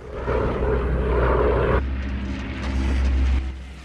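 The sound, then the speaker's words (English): Droning engine roar of P-51 Mustang fighter planes flying as an escort for bombers, a loud, steady propeller hum whose tone shifts partway through before swelling again and then easing at the end. “The bomber crew see the Mustangs arrive as their escort.”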